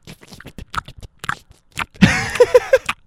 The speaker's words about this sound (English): Now you guys are going to hear me smack my lips.